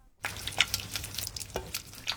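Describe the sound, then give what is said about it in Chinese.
Stirring of ground white sesame mixed with a little water in a pot, heard as many soft, uneven scraping strokes that continue steadily and alone at moderate to faint loudness. “继续搅拌，直到白芝麻粉逐渐变成块状”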